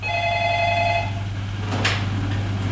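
A telephone rings with an incoming call: one steady, bright ring lasting about a second, then stopping. A constant low hum runs underneath throughout, with a short burst of noise afterward.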